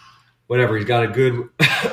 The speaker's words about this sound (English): I'm coughing.